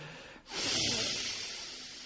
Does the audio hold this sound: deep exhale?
yes